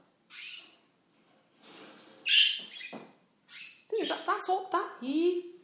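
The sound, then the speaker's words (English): Canaries chirping: scattered short, bright calls separated by quiet gaps, then a quicker run of several sharp chirps toward the end. “And the little did-did-did-did is all my canaries seem to do.”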